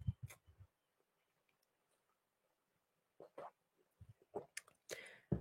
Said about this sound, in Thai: ดื่มน้ำสักนิดหนึ่งนะครับ